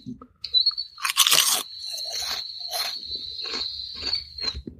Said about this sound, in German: Also, ich wollte nämlich mal wissen, was ist das Besondere an Kessel Chips. Erstmal probiere ich das mal.